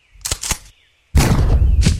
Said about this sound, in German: Das war natürlich das Betäubungsgewehr.